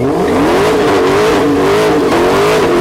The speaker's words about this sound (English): Here is the sound of the Dodge Demon revving its engine.